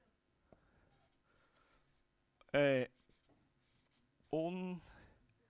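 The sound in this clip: A marker pen runs dry while writing, making faint scratching broken by two loud, squeaky pitched strokes.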